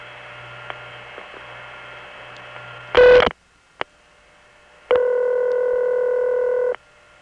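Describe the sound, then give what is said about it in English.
Multifrequency signaling tones on a call routed from the Bronx crossbar tandem to the Binghamton crossbar tandem, over a constant mains hum: a short loud tone burst, a single click, then a longer steady multi-tone signal of almost two seconds. “In this case, it goes to the Bronx crossbar tandem, which MFs 7 digits to Binghamton crossbar tandem, which again dial pulses into a step.”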